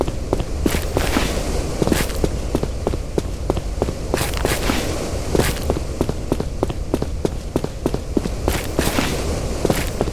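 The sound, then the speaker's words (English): Running footsteps of a video game character patter quickly and steadily, many crisp even steps in a fast regular rhythm over a constant background bed. “So, once again, I'm running. I can't really stop myself.”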